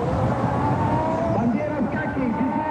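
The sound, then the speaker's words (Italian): A Ferrari Formula One race car crosses the finish line at the Imola San Marino Grand Prix. It gives a brief, high tonal engine whine with a voice talking over it. “Pironi vuole vincere, vuole passare per primo sul traguardo di Imola. Ferrari! E ci riesce. Eccoli!”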